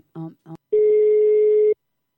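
Telephone ringback tone as a call is placed: two short buzzy beeps, then one long, steady, loud tone lasting about a second.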